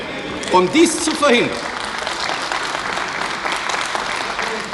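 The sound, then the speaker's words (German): Applause in the West German Bundestag during a 1958 debate on media control: dense, steady clapping fills the whole clip, with a man's voice briefly speaking over it near the start. “Warum klatschen Sie so gegen Ihren eigenen Antrag?”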